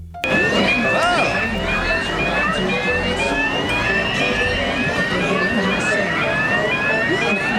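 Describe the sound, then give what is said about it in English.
Fire alarm going off: a continuous, loud electronic wail of rapid, repeating rising sweeps layered over a dense rumbling background that holds steady throughout. “Is the fire alarm going off the whole time?”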